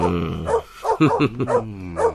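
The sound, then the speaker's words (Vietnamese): A dog barks in a quick run of several short, yelping barks with some whining between them, loud against a quiet background. “Ông chủ của anh đang ôm con chó đi ra kia rồi kìa.”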